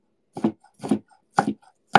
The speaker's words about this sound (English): More minced garlic never hurt anybody. I should sharpen this knife.